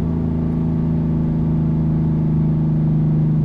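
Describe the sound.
A car engine drones steadily in fourth gear at around 3,200 to 3,500 rpm, coasting downhill off the throttle, with a loud, even, low hum that holds a constant pitch throughout.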